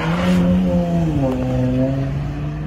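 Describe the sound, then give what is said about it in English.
An unmarked Dodge Charger's engine drones loudly and steadily, with a tonal hum whose pitch dips slightly midway and then holds level. “And that looks like the same unmarked Dodge Charger from the last video.”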